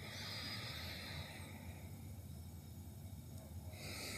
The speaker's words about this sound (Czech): zhluboka se nadechnout nosem, vydechnout nosem, opět nádech nosem